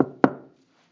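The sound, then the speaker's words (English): A knock on a door: a couple of sharp, hollow raps close together, the second one louder, then a short decay into silence. “And about that time, there's a knock on the door.”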